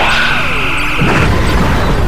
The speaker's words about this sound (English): Phasers fire! Phasers fire! Corvette destroyed!